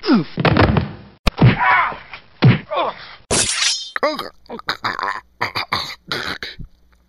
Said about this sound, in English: I have bared his breast and drove this stake deep through his heart to destroy the plague of vampirism.